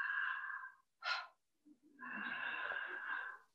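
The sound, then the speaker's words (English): A big open-mouth belly breath drawn in with a breathy, tonal rush, then a short sharp burst, a brief pause, and a long, relaxed exhale that trails off. “So it's a big intake of breath. It's a relaxed exhale.”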